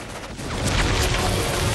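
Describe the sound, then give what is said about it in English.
Gunfire aimed at an attacker inside a shifting stone pyramid, a dense, continuous burst of loud shots blurring into a booming, rumbling roar with no clear gaps between rounds. “The others start firing at the attacker, but it's already retreated into a tunnel in the wall.”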